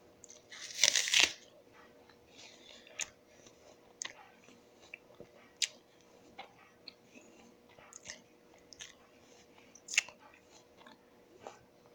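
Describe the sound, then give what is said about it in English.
Crunchy bites and chewing of an apple: a loud, crisp bite near the start, then many fainter wet crunches and clicks scattered irregularly through a quiet background. “I'm eating an apple. I don't know if you can hear that”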